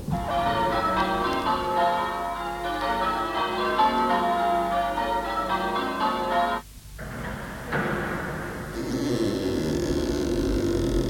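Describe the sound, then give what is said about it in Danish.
A deep doorbell rings at a castle door as a storm gathers: repeated sustained bell tones chime for several seconds, then cut off abruptly and give way to a rushing noise. “Nå ringer jeg på dørklokken.”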